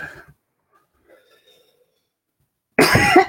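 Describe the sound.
A man coughs and clears his throat: a brief cough at the start, near silence, then a louder, rougher throat-clearing burst at the end.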